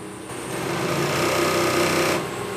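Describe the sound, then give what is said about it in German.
A hand-operated industrial sewing machine stitches on binding tape while trimming the fabric edge, its fast whirring motor swelling up, running steadily at a loud, even buzz, then dropping back as it slows. “Da läuft das Einfassband dazu und dann tut es gerade abschneiden und gerade verputzen, sauber. Aber an dieser Maschine hockt jetzt noch jemand, also das ist Handarbeit?”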